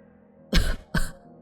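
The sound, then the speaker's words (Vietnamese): A man coughs hoarsely with a hand on his chest and his mouth covered. Two loud, rasping bursts come close together with a short quiet gap between them, and there is no talk. “Thầy Bảy cứ đứng đó, tay ôm ngực, tay che miệng, ho đến khàn cả giọng”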